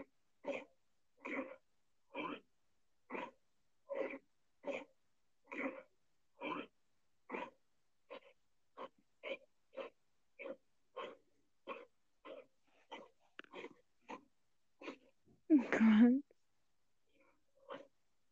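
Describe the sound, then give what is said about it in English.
Coughing and wheezy, odd breathing: a long, faint run of many short, evenly spaced raspy bursts, ending with one louder and longer cough-like burst. “Coughs, breathes. They breathe weird.”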